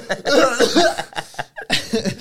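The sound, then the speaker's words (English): A voice imitates someone choking and coughing with a few harsh, breathy, strained bursts in quick succession, fairly loud. “you just viciously start just choke, like coughing”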